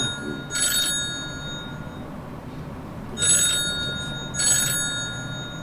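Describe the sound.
A telephone rings for an incoming call, three separate trilling bursts with pauses between them over a low background rumble.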